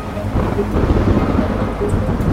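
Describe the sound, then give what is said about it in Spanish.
An approaching thunderstorm, with waves and wind against thin wooden walls, rolls as a loud, steady low rumble with a broad hiss through the whole stretch and no voices. “La tormenta se acerca.”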